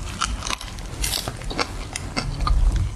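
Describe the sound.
Someone bites into and chews fresh wholegrain bread, producing many crisp, crackling crunches in a steady, uneven rhythm. The crunches stay close and loud throughout, with softer mashing between them and no talk.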